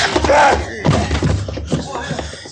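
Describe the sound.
A man is punched and knocked down during a fight, with heavy, dull thuds and scuffling blows mixed with male voices.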